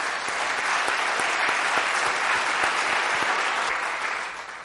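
Audience applauding to welcome panelists at a panel discussion: steady, dense clapping that continues evenly before tapering off at the end.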